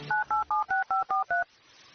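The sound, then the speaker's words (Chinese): Telephone keypad dialing: seven evenly spaced, steady two-tone beeps of similar length in a brisk rhythm, followed by quiet. “好好好，我给金锁打电话。”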